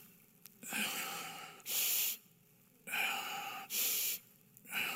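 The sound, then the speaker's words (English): A man imitates a boy's heavy, machine-like breathing with loud, rasping breaths in a steady rhythm, alternating inhales and exhales over a few cycles. “And this is the way he breathed.”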